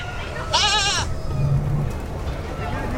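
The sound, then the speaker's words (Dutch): A single goat bleat at a petting farm: a loud, high, quavering cry lasting about half a second, followed by a low, steady background murmur. “Ik ben niet zo'n geitenvriend, hoor. Die geiten vond ik eng, maar kippetjes vond ik leuk.”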